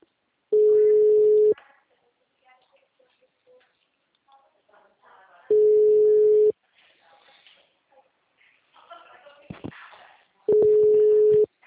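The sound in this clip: A phone call rings unanswered, giving three steady, mid-pitched ringback tones about a second long and evenly spaced. Faint, indistinct sounds fill the quiet gaps between the rings.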